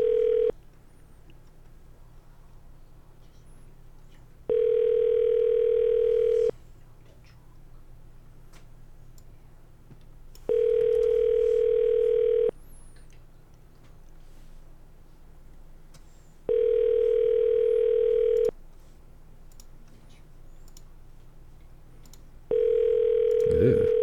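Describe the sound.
Ringback tone of a telephone call being placed: a steady mid-pitched tone sounds in bursts of about two seconds, separated by roughly four-second silences, repeating evenly throughout.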